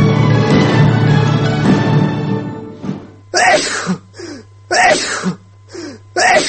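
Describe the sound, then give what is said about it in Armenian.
Sneezing amid a segment about allergies: a short run of about five sharp, breathy bursts in irregular rhythm comes after a stretch of steady, broad noise. “Առողջություն։ Ալերգիայով տարապողների համար ծանոթ երևույթ է անընդհատ փռշտոց”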